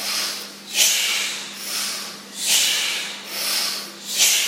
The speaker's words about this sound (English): Breathe in more, out more. In more, out more.